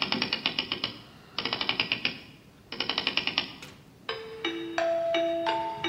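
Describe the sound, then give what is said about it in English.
Rapid mechanical clattering from a wind-up clockwork mechanism on a desk that writes like a hand, heard in three dense bursts of clicks, then steady sustained tones for the last couple of seconds. “It says here that once everyone is present at 4:58 p.m., I am to wind up this key on the side of the desk.”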